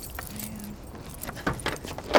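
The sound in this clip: Keys jangle faintly in a few bright metallic rattles that grow louder toward the end, during a struggle over them by a car trunk.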